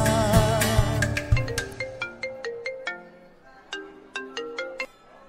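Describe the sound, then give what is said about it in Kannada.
A mobile phone ringtone plays for an incoming call from dad. A bright melodic pattern of chiming notes starts dense over a sustained backing, then thins into sparser repeated note phrases, loud and alone. “ಅದ್ಯಾಕೆ ನೀ ಅಪ್ಪನ phone cut ಮಾಡ್ತಿದ್ಯಾ”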